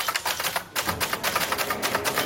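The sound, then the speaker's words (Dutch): Rapid mechanical clacking of keys struck on orange typewriters set out in a library, a fairly quiet, uneven stream of many keystrokes with one brief pause early on. “Hij zette in de bibliotheek van Zwolle namelijk een hele rits oranje typemachines neer waar mensen lekker op konden rammen.”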